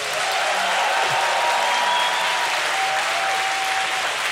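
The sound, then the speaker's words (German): Applause from a sold-out audience in the hall of the Fabrik in Hamburg during the Harbourfront literature festival, a dense, even roar of clapping that stays strong for the whole stretch. “Ja, so klingt ein ausverkauftes Haus.”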